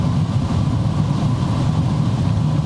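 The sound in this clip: Heavy road traffic rumbles steadily as big trucks pass, including a Volvo and a FedEx rig, a dense, even, low engine and tyre roar that holds level throughout with no voices.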